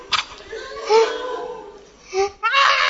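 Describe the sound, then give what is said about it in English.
A voice imitates a child crying in pain, with wailing, strained bursts of sobbing that rise and fall in pitch, separated by short breaths. “Have you ever seen someone cry, a child crying? The pain is so much. He cries like,”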